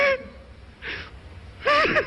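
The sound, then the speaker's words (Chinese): A person crying during a comic stage dialogue: three short bursts of gasping and sobbing, the last a louder, wavering whimper. “真动了感情了。哎，您先别哭。”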